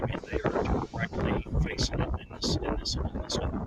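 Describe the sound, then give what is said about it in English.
Strong, brutal wind blowing outdoors, a dense, rumbling buffeting roar that gusts and swells continuously across the whole stretch. “Well, as you can hear, we have a brutal wind out here right now. This is not easy.”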